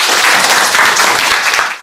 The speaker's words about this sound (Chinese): 好，大家来给他掌声鼓励一下。